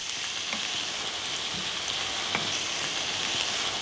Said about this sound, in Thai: ให้โหระพามันโดนความร้อนเต็มๆนะคุณผู้ชมมันจะได้ไม่ดำมันเขียวสวยอยู่